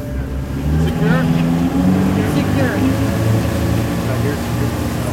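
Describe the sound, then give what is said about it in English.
A powerful motorboat engine, on a boat used for marine mammal rescue, roars loudly and steadily as the boat speeds off across the water, with a deep, constant drone throughout. “And we're off. The motor is powerful, and the boat goes at a fast clip.”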